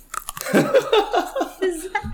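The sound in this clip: Crunching and chewing of a snack: a brief, fairly loud burst of bites and mouth sounds with voiced murmuring or chuckling over it.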